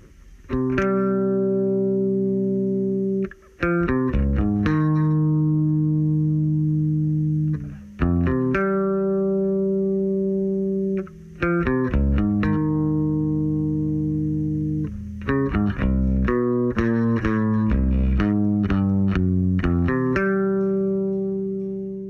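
An isolated electric bass guitar part from a rock song's interlude, with sustained, resonant low notes that change pitch every few seconds and are separated by brief breaks, with no other instruments.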